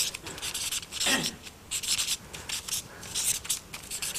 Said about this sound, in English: Oops, this carpet is not so great for writing.